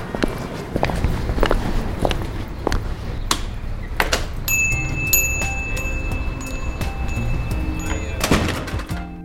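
Footsteps walk steadily toward a bookshop, many even thuds in a regular rhythm, with a thin high tone ringing faintly through the middle and end of the walk.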